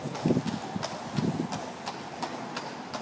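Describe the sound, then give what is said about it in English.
Horses' hooves clop on a London street in a steady, regular rhythm of sharp strikes, clearly audible over a constant low background rumble of traffic-like noise. “So you can hear the horses behind me, probably. The horses coming up to my left, actually.”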